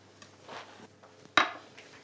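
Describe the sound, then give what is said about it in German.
Knife finely cutting beetroot on a board for couscous: a few soft scraping cuts, then one sharp, louder knock of the blade, with quieter taps after it. “Für meinen Couscous möchte ich auch noch ein paar so rote Beetestücke drinnen haben. Und zwar werde ich die rote Beete so ganz fein schneiden.”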